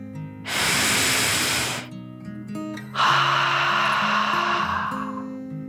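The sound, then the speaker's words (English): A deep dragon breath in and out: first a long, airy rush of inhaling, then after a short pause a louder and longer hissing exhale that slowly fades, over a soft tonal background. “Dory took one last deep dragon breath in and out.”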